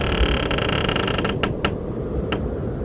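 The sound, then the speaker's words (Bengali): A wooden door creaks as it is pushed open, giving a thin, drawn-out creak over a rough, noisy background, followed by a few short, sharp clicks. “একটা মিহি আওয়াজ করে খুলে গেল কাঠের দরজাটা।”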